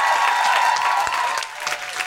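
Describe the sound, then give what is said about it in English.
Comedy club audience at the Punchline Philly applauds and cheers: a loud, continuous wash of clapping and crowd noise that thins out over the final half second. “Can I have a big thank you and cheer for everyone here at the Punchline Philly for begging us for welcome?”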